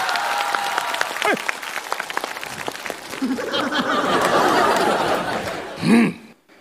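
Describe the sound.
Audience applause that grows into dense, steady clapping, with scattered chuckles and some voices mixed in, before it stops abruptly near the end.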